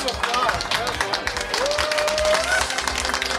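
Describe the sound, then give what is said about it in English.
Applause from a crowd: dense, continuous clapping fills the whole stretch at an even loudness, with some voices mixed in. “Hey, round of applause, well done. Everybody. Round”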